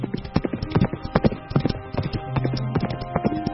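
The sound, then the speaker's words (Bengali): A horse gallops off in quick, uneven clusters of sharp hoof clip-clops on hard ground. The hoofbeats are many and loud, with the rhythm tumbling forward and no speech. “সেই অচেনা বার্তাবহকের পিছন পিছন ঝড়ের বেগে ঘোড়া ছুটিয়ে দিলেন তিনি।”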